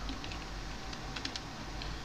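Typing a chat message on a computer keyboard, with faint, irregular key clicks over a steady low hum and no talking.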